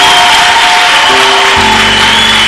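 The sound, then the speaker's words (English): Congregation applauding on a preacher's prompt during a church service, a short burst of even, continuous clapping with sustained musical tones underneath. “Okay, so let's clap once again.”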